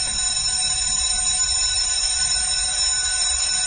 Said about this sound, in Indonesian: bel pulang sekolah berbunyi.